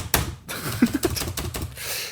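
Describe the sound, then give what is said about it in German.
Someone typing on a keyboard: several irregular, light clicks and taps, fairly quiet and spaced unevenly across the moment. “Was machst du da? Ich tippe was ein.”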